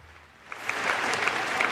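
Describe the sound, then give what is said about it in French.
Applause breaks out as an ovation for Jesus at a Christian gathering, swelling from faint clapping into a dense, steady roar of many hands, with a few sharper claps standing out. “Une ovation pour Jésus. Gloire à Dieu.”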